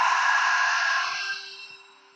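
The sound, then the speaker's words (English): A long, breathy exhale through the mouth during a breathing exercise. It starts fairly loud and slowly trails off over about two seconds. “I just want you to inhale and exhale through your mouth.”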